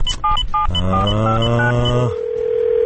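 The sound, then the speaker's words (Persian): Phone call being dialled: a few quick touch-tone keypad beeps, then a long buzzing tone with stepped higher notes, ending in a steady pure tone. “بذار من یه زنگش بزنم این آدرس درست بگیرم برم پیش شما.”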